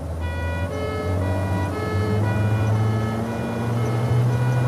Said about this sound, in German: Stell die Sirene an.